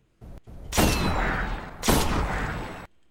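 Gunfire from a weapon in the video game Destiny, bought from Xur: two loud, heavy booming blasts, each followed by a long, crackling, rumbling tail.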